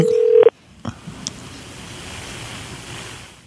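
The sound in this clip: A telephone keypad tone sounds as a call is placed: one steady beep lasting about half a second, then a brief click and a low continuous hiss.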